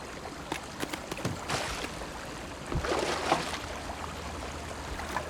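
Water splashes and swishes as a canoe is paddled, with irregular splashy strokes and a steady wash of moving water between them.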